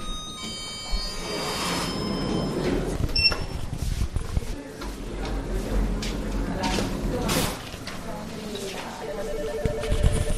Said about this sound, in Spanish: El silencio que de vez en cuando rompe alguna llamada telefónica.